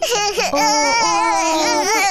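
A baby cries in loud, high-pitched wailing sobs, with sharp breaks between cries and a sustained, strained tone.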